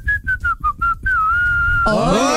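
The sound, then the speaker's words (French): A person whistles a tune: five quick, clipped notes in a steady rhythm, then one long held note. A brighter sound rich in overtones takes over at the very end. “On va jouer avec le siffleur aujourd'hui, ça vous va? Très bien. Il fera un truc comme ça.”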